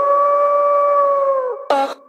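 A wolf howls in one long, sustained, tonal cry that holds a steady pitch and then sags downward at the end, followed by a short, noisy burst of sound.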